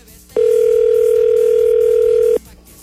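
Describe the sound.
A telephone ring tone sounds while a caller waits for an answer: a single loud, steady tone of constant pitch lasting about two seconds over a low background murmur.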